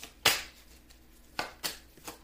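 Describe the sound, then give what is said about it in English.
Tarot cards are shuffled and drawn, giving a few quiet, sharp papery snaps spaced irregularly over faint background hiss. “Let me take some more cards right quick.”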